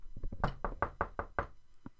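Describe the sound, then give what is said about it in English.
A rapid run of knocks on a door, many quick thuds in an uneven rhythm at a fairly low level, followed by a short pause and one last single knock. “Oh no, there's the door.”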